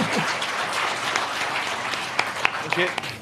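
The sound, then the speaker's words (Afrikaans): Audience applause for a safari guide being honored: a steady bed of clapping with a few sharper, louder claps standing out near the end, and voices faintly beneath. “Ek wou juist gevra dat julle moet vir my hande klap.”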